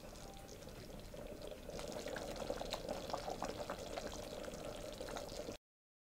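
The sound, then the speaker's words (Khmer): Coconut cream is poured into a pot of taro dessert cooking with sugar, making a faint, steady liquid rush with light bubbling that continues for over five seconds and then stops abruptly. “ឥឡូវខ្ញុំដាក់ខ្ទិះដើមចូលបន្តិចទៀត”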